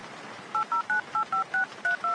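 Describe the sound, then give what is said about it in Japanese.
Telephone keypad tones ring out as a phone number is dialed. The crisp two-tone beeps come in a quick, evenly spaced run, each short and clear over a faint background hiss. “とにかくこの事務所に電話して聞くのが早そうね。”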